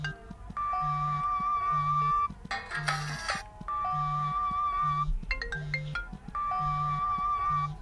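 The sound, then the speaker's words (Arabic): Default iPhone ringtone, a bright electronic melody over a steady low pulse. The phrase repeats three times, separated by short noisy breaks and clicks. “وهذه النغمة العادية.”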